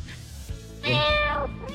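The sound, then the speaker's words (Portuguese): Cats caterwauling while mating on a house roof: one loud, drawn-out yowl with rich harmonics that wavers in pitch, rising out of a low, quiet background. “Você já acordou de madrugada, mano? Com um gato fazendo sexo no terreiro, no telhado da sua casa?”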